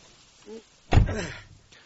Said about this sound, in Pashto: نو دا ډاله ولې نه بندېږي؟ لږه ټینګه ووه وروره، بندېږي.